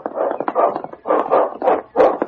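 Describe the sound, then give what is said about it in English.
A dog barks on a wilderness trail: several hoarse, mid-pitched barks in a quick, uneven rhythm with short gaps, moderately loud and with no talk over them. “Look, he's barking around the bend.”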